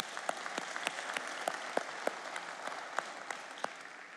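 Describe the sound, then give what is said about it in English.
Audience applause from people in the room at a public event in Montgomery, a steady patter of distinct claps at moderate volume that continues throughout without cheering. “For those of you who are in the room, would you please give our online and television audience a big hand?”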